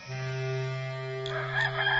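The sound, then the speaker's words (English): A rooster crows once in a long, loud, sustained harmonic call that holds steady before breaking into a rougher, noisier ending, with no voices present. “Immediately a rooster crowed, and Peter remembered the word of Jesus who had said to him, Before the rooster crows, you will deny me three times.”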